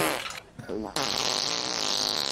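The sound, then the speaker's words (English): A fart made as a mock tribute to Prince Philip: a brief, buzzing, warbling burst set against loud, sustained noise. “All right, so Prince Philip fart tribute. Check that off the list.”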